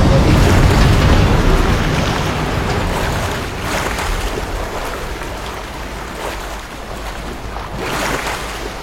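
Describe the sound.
A loud, continuous rushing roar of water as a wave surges over a man beside a railway carriage. The broad, noisy wash swells and eases a few times with no voices.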